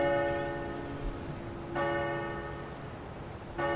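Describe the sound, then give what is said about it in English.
A clock bell rings during a storm with three resonant strokes, each ringing on and slowly fading, over a steady background hiss. “Oh, the clock, the bell still works.”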